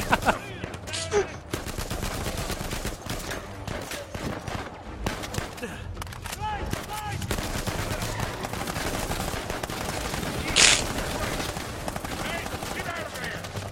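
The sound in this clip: Video game gunfire during a shooting sequence: dense, continuous volleys of rapid shots run throughout, one louder crack standing out near the end, with voices present at times.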